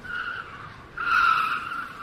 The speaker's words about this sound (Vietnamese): Tiếng phanh xe chua chát vang lên, xe của anh đâm thẳng vào gốc cây bên đường và dừng lại.